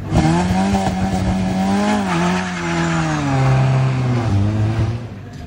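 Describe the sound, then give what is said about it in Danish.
A car pulls away from the foot of a hill, its engine revving loudly and steadily. The pitch climbs, then drops at what sound like two gear changes, and the engine keeps up a strong, continuous roar. “Nu kommer der endnu en start fra foden af Munkebjergbakken. Den lyder sådan her.”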